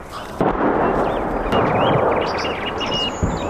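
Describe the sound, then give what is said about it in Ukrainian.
Artillery fire before an assault near Bakhmut in darkness: a continuous heavy, low rumble broken by a few sharper thuds, with birds chirping faintly above it. “Зараз буквально артпідготовка і далі буде бій.”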